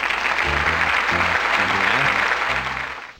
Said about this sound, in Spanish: pone el aplauso